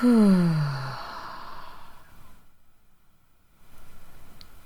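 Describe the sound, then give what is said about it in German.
Breath during a guided exercise, in through the nose and out through the mouth: a loud sighing exhale with a falling tone that fades out, a near-silent pause, then a soft breath returning. “Atme noch einmal durch die Nase ein, halte den Atem und atme durch den Mund wieder aus.”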